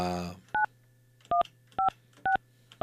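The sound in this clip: Touch-tone keypad beeps as a telephone number is dialed: five short, steady dual-tone beeps spaced evenly apart. A brief bit of talking comes just before the first beep.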